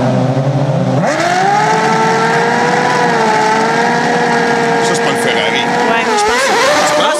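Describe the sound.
A 2014 Ferrari Formula 1 race car engine gives a loud, continuous high-revving whine. Its pitch jumps sharply at about one second and then holds nearly steady, with a brief dip near the end.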